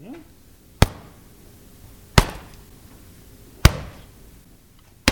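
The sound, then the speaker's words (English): A rug beater whacks a rug in four sharp, loud smacks spaced about a second and a half apart, each a bright crack with a short tail, over a quiet background. “What you're hearing is a rug beater.”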